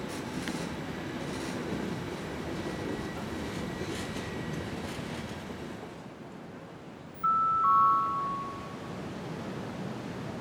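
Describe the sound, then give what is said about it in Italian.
A regional Trenitalia train from Levanto to La Spezia arrives at the Monterosso al Mare platform: a steady, broad rumble of rolling wheels, then a brief, high, piercing tone rises over it near the end. “22945 di Trenitalia, proveniente da Levanto, è diretto alla Spezia Centrale, delle ore 19.12, è in arrivo al binario 3. Attenzione! Allontanarsi dalla linea gialla.”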